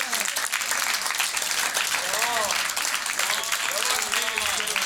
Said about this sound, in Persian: به کف مرتب بزن.